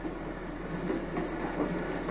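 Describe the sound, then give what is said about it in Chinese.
A train runs on tracks with a steady low rumble and faint rhythmic clatter, holding an even, moderate level throughout. “你说这火车要去澳洲的话该多好啊！”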